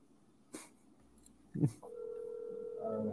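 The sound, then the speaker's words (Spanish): A telephone is dialed to place a call: a couple of short clicks and thumps, then a steady electronic tone that holds to the end. “Llamando a Aguilar”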